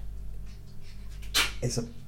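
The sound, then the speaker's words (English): A short sneeze from someone who is eating: a quick, sharp burst of breath followed by a smaller second burst, over a faint steady background hum. “there's a possibility that's him sneezing. He sneezes when he eats.”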